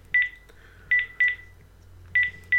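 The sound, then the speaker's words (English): Keypad tones from dialing a phone number on an iPhone, four short, bright electronic beeps at uneven intervals against quiet background noise. “So if I ring my iPhone stroke watch again, so I'm putting my number again,”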